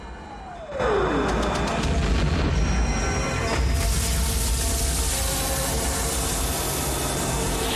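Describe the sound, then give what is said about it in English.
Explosions hit a bridge in a war film and debris crashes into the water. A falling whistle leads into a loud, sustained roar of blast and splashing noise that carries on for several seconds without any talk. “Explosions hit the bridge behind them, crashing parts of it into the water as the boat powers away.”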